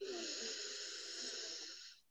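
A person slowly breathes in through the nose during a guided relaxation exercise. One long, faint, airy inhale holds steady for about two seconds, then fades out, alone with no talk.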